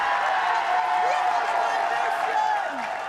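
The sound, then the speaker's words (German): A crowd in Plau am See cheers as comedian Annette Frier comes down a staircase, a dense and even wash of crowd noise that holds steady and fades slightly near the end. “Wenn eine Frier die Treppe runterkommt, dann jubelt natürlich Plau am See.”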